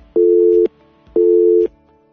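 Telephone busy signal on a line that cannot be reached: two loud, steady low tones, each about half a second long and separated by equal silent gaps, with no voices.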